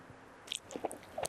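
A wax apple is bitten and chewed in a few crisp, wet crunches that come in short, close bursts and are fairly faint.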